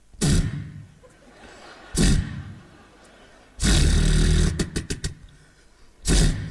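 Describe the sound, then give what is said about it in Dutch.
A voice imitates a Harley-Davidson motorcycle that fails to start: rough, noisy sputtering bursts, with a longer roaring stretch that breaks into quick choppy pops, then another short burst. “Nu doe ik een Harley Davidson, daar mag je nog niet op. Dat is een motor die niet wil starten.”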